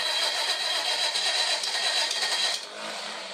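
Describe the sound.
A car engine runs with a steady, hissy hum as the car is put in reverse, holding level for a few seconds before dropping to a quieter idle for the final second.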